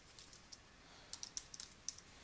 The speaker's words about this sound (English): So I'll type something in here.